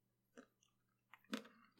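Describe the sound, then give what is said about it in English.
Crunching on coarse black salt on the rim of a grapefruit cocktail: a few faint, dry crunches, spaced apart and chewed, with no voices. “That's some crunchy salt.”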